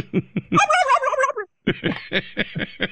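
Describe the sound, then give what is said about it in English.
Turkey gobble sound effect: a rattling, warbling gobble burst, then a brief silence and a string of short, sharp clucking pulses in quick rhythm, loud and alone. “But I just played the turkey gobble.”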